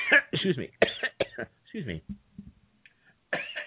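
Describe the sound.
A few short, dry coughs and throat clearings from someone whose throat has gone dry from long talking. They come in sharp bursts with quiet gaps between them.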